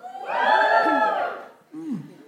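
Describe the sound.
Audience cheering rises quickly into a loud, swelling burst of many voices, holds briefly, then fades away before a shorter second shout.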